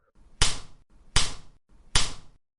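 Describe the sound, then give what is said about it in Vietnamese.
Three sharp slaps across the face, evenly spaced and loud, each a crisp smack that fades quickly, with no voices. “Tiếng bạt tai rõ ràng vang dội, khiến ai nghe được đều hãi hùng khiếp vía.”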